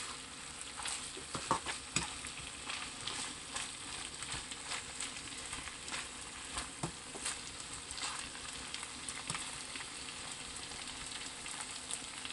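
Chicken sukka sizzles in a pan over a high flame, making a dense, steady crackling hiss with scattered pops and stirring scrapes. No voices are heard.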